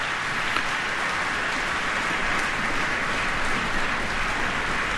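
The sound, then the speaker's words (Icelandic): Concert audience applauding an orchestra conducted by Barbara Hannigan, a thick, even rain-like patter of clapping sustained throughout. “Þeim vel fagnað hér hljómsveitinni. Fyrsta flauta Rafael Adobas fékk hér sérstakt lof frá bæði Hannigan og áhorfendum.”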